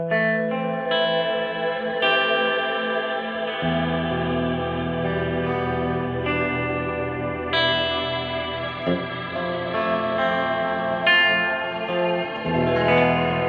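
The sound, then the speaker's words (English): A synthesizer patch run through a particle reverb preset, with the lows turned up for an almost sitar-like tone: sustained, droning chords with chorus-like shimmer and echoing tails, shifting to new pitches every few seconds, with no talking. “Let's turn up the lows here. Almost sitar-like. Let's see. Particle reverb? I don't even know what that is.”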